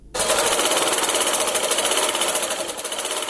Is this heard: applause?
no